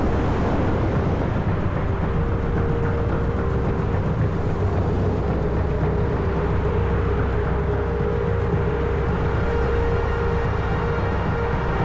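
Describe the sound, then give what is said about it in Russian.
Cars drive along a mountain road at night, heard as a steady, broad engine and road rumble that holds at an even level throughout without distinct separate passes. “По ночной горной дороге едут автомобили.”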